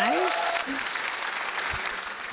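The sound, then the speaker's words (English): Audience clapping breaks out for a guest on a show. A voice speaks briefly at the start, then a steady, moderate wash of many hands clapping fills the rest of the moment. “So audience, why are you not clapping for like one of my friends here? There you go,”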